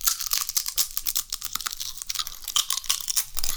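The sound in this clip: A crunchy slice is bitten and chewed, giving many sharp, crisp crackles and crunches in an uneven rhythm, close and clear, with no talking.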